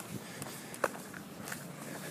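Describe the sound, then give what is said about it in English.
Faint footsteps of a brisk walk along an empty street in light drizzle: soft, irregular steps over a steady hiss, with one slightly sharper step partway through. “So now I'm taking a brisk walk. It'll be about a 45-minute walk.”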